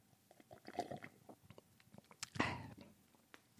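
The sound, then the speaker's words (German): A person drinking: soft wet mouth clicks and smacks come at an irregular pace, then a louder rushing gulp stands out before quieter clicks return. “Trinken, okay. Wollt ihr mitmachen beim Trinken? Ja, hört mal zu.”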